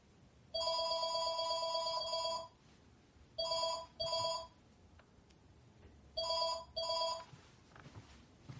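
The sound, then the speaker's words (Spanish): A cordless telephone rings with a warbling electronic trill: one long burst, then two pairs of short double rings, steady and fairly loud with no voices. “Se aleja de la escalera y coge un teléfono inalámbrico.”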